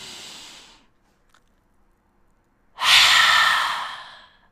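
Deep breathing during a yoga pranayama practice: a fading breath, a pause of near silence, then a loud, airy open-mouth rush of breath that slowly trails off.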